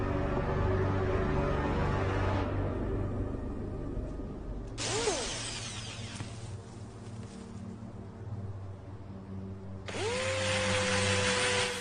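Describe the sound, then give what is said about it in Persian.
A power drill bores into the nose fuse of a bomb, a sustained buzzing whine with a steady tonal hum whose pitch briefly shifts twice during the run. “فیوز دماغه رو با دریل سوراخ میکنم.”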